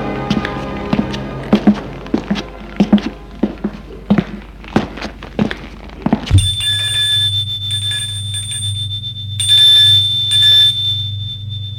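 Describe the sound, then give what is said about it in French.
A doorbell rings with a bright, steady electronic tone held for about five seconds over a low hum. Before it comes a quick run of sharp taps and thuds, like footsteps or knocking. “Demi-heure plus tard, il va sonner chez Guillaume.”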